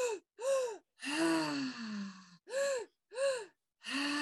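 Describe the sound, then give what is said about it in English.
A person takes deep breaths in six voiced gasping bursts separated by short silences. The third is a long sighing exhale that sinks in pitch, and the others are shorter arched gasps. “A few more breaths. Try to make them bigger.”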